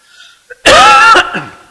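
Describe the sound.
A single loud, harsh cough bursts out from a throat irritated by allergy, rasping for about half a second before a fainter breathy tail.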